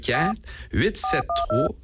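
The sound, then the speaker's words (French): Three short telephone keypad tones sound in quick succession as a number is dialed. Each is a steady, clean dual-pitched beep, heard right after and alongside a person's voice. “Donc, on l'appelle? On va l'appeler. On va utiliser le téléphone.”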